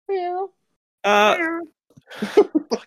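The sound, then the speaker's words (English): Voice imitations of a cat meowing: a short, steady meow, then a longer one that falls in pitch. Loud talking follows. “meow. People actually making cat noises.”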